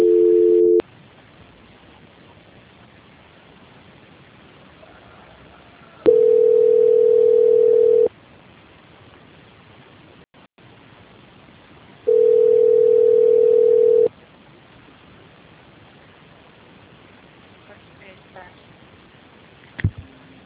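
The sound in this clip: Telephone ringback tone during a call transfer, a steady low beep about two seconds long that repeats every six seconds, the first one cut short, with quiet line hiss in the gaps between.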